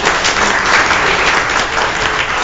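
Loud, continuous audience applause in a church, a thick wash of many clapping hands holding at an even level for a couple of seconds with no voices over it.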